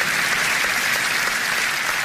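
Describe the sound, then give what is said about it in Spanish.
Applause from a church audience, many hands clapping together in a continuous, even patter that holds steady without breaks. “Un aplauso, Señor, por la palabra de Dios.”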